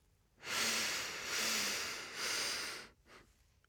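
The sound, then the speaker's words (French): A slow, deep breath in during a guided breathing exercise: one long, soft, airy inhalation lasting about two and a half seconds, heard alone. “Et on inspire.”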